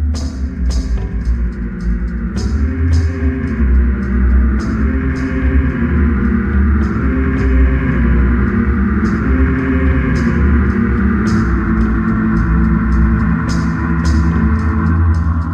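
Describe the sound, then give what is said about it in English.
A video game temple music track, in the version with its prayer chants removed and replaced by samples like low, echoing voices. Dense, steady and loud, it has sustained low tones under regular sharp percussive hits. “The new track, with those chants removed, sounds like this.”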